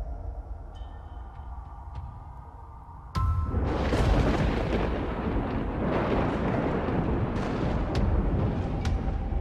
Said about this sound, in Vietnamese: Đúng lúc ở bên ngoài trời, tiếng sấm đì đùng vang lên, kèm theo một tia sét chiếu xuống, sáng rực cả bầu trời.